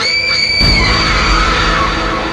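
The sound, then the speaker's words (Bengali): A piercing, high-pitched scream in a horror tale, holding a sustained shrill tone at first, then merging into a loud, rough rushing noise that continues at strong level to the end. “সে রাতে সোহো তার প্রেমিকার জন্য অপেক্ষা করছে এমন সময় হঠাৎ তার কানে এক মর্মভেদী চিৎকার এলো”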